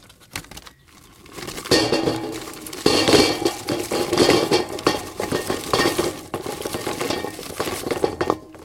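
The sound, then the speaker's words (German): A barbecue grill is fired up with busy metallic clinking, clattering and rustling that keeps going for several seconds at a fairly loud level, with no voices. “Experten und Expertinnen unter euch wissen natürlich schon, was das für ein Geräusch ist. Richtig, wir schmeißen den Grill an”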